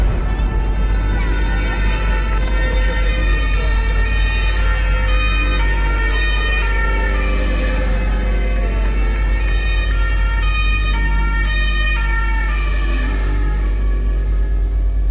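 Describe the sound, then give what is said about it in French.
Emergency sirens wail as gendarmes and rescuers arrive on a forest road near Chevaline, France. Loud, continuous siren tones shift between pitches over a steady low rumble for the whole stretch. “Il est 16h lorsque les gendarmes et les secours arrivent, toutes sirènes hurlantes sur le lieu du drame.”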